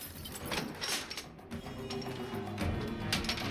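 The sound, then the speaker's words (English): Ratcheting mechanical clicks as screws are drawn out, a dense, steady rattle of clicks that stays fairly faint and continues without a break. “whilst his colleague continues drawing out screws”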